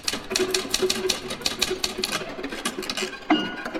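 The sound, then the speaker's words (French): A typewriter clatters with many rapid, evenly paced keystrokes in a steady rhythm, and a sharper strike comes near the end. “La machine à écrire, le son de ce que nous écrivons.”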